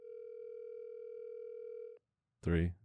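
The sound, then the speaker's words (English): Ringback tone from an unanswered phone call: one steady, unbroken tone lasting about two seconds that cuts off cleanly. A short pause follows, then a voice. “Dude, you're definitely getting sent the voicemail. It's over. This is a voicemail call. Yeah, dude. Oh, no. Four rings. Oh, that's like out. Four rings.”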